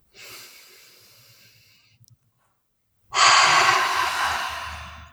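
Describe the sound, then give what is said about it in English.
A deep breath during a guided tapping exercise: a soft, airy inhale lasting nearly two seconds, a short pause, then a louder, fuller exhale that slowly fades. “Good. Deep breath.”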